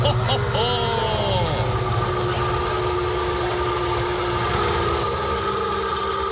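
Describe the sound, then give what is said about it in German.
A Wartburg Melkus RS 1000, the East German sports car, runs with a loud, steady engine drone throughout. A brief wavering whine sounds near the start. “das ist der Sound des Wartburg Melkus RS 1000, der einzig echte Sportwagen der ehemaligen DDR”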